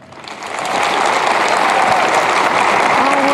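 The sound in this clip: Applause from an audience welcoming a speaker on stage, swelling over the first moment into loud, dense, steady clapping that continues without any voices.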